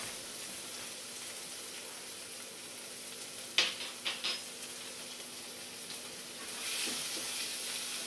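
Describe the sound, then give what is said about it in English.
Prawns sizzle quietly in a pan while being fried for a curry. A soft, even frying hiss runs throughout, broken by a few sharp clicks near the middle, with the sizzle swelling slightly toward the end. “So I've fried my prawns now until they've changed from the colour blue to pink.”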